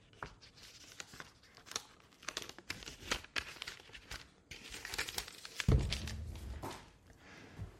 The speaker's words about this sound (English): Oh, you gave me a nice fat euro. Sweet. I'm going to have to peel this off somehow.